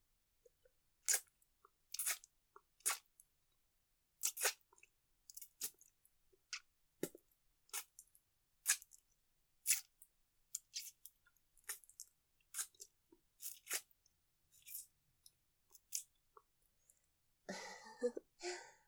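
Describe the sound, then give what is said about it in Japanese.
Ear-licking ASMR mouth sounds: many short, wet clicks and smacks in an irregular rhythm, each crisp and bright, with a denser rustling, slurping burst near the end. No talk is heard. “耳舐めです。”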